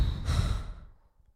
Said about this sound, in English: I would at this point ask you to breathe in, hold that breath, hold it, hold the breath. And release.